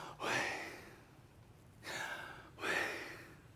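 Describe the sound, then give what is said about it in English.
A voice imitates breathing in and out to sound out a sacred divine name. It makes three soft, airy breaths, each swelling and fading, with short pauses between them. “So YH is effectively breathing in, and WH is effectively breathing out. It sounds kind of like,”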